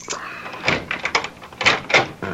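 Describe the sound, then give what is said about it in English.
A key works a door lock. A few sharp metallic clicks and rattles come in quick, uneven succession over a couple of seconds. “You open the lock. Okay, here goes.”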